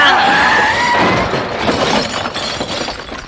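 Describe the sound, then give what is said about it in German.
A car smashes through a wall at the end of a tunnel by the sea, a loud noisy crash with shattering, breaking debris that stays rough and turbulent throughout before easing slightly. “Anhalten, Just. Ich kann nicht. Jetzt läuft die Karre weiter. Himmel. Haltet euch fest. Wir krachen gegen die Wand zum Meer.”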